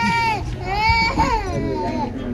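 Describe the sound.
A newborn baby, just delivered, cries in a loud, high-pitched wail with wavering, rising and falling cries that run continuously across the whole moment.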